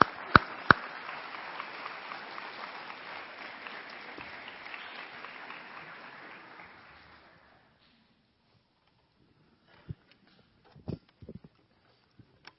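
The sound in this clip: Audience applause welcoming guests to the stage, a steady wash of clapping that fades out after several seconds, followed by a few scattered knocks and footsteps in near silence.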